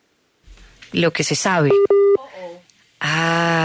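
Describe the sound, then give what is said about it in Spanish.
A telephone sounds with an incoming call during an interview with an ambassador, giving two short, steady electronic tones. Voices and other tones come just before and after them. “No, y eso es que le están marcando, ¿no? Sí. Ahí le están marcando.”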